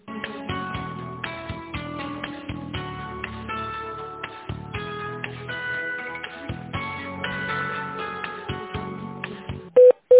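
Telephone line tones while a call is transferred: a thin, narrow-band melody of plucked notes plays throughout, ending in two loud, short beeps.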